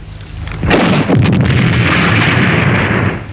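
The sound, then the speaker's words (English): A bazooka firing sound effect: a single sharp, loud blast opens into a sustained, rushing roar that holds for a couple of seconds before easing off. “this is a grenade launcher. A bazooka.”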